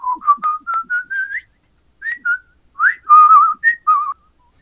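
A man whistles a jaunty tune as a stage entrance in an early pre-vinyl comedy recording. Many short, clear, mid-high notes fall into two phrases with a pause between them, and there is no talk.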